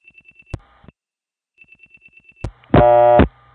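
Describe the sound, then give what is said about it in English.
Telephone tandem office dialing and handshake signals: a run of faint, rapid pips and a couple of sharp clicks, then a second run of pips, another click, and a loud buzzy tone lasting about half a second. “So when I dial 58, which is the same as dialing 598, the office code,”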